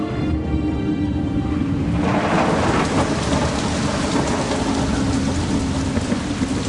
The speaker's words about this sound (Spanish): La lluvia se desató solo en segundos